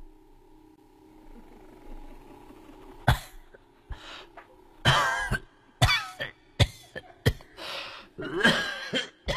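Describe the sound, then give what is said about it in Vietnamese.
An elderly woman coughs harshly in repeated rough bursts that come in quick, uneven clusters. The coughing is fairly faint and comes alone, with no talk. “chỉ để lại tiếng cười cứ khinh khích đâu đây cùng với tiếng ho khành khạch của bà cụ.”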